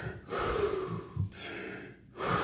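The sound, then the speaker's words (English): Big, deep, forceful breaths taken during a superventilation breathing exercise, a few long whooshing inhales and exhales separated by short pauses, fairly faint and with no talking. “Big deep breaths like that.”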